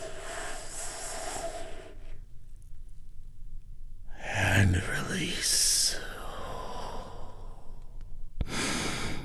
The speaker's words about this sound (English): We do this by taking a big, deep, healing breath all together.